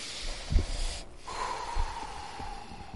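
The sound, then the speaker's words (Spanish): A deep breath in and a slow exhale during a guided relaxation exercise, with soft breathy airflow and a couple of faint sniffs. “Respiramos hondo y exhalamos lo que queda del cansancio.”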